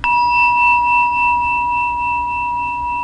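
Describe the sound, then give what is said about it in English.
A mindfulness bell is struck once and rings on in a clear, sustained tone with bright overtones, gently pulsing for about three seconds with no other sound. “The mindfulness bell, and this is in many forms, in many traditions, is really a way, a calling. It's calling us back into this moment to discover what's true.”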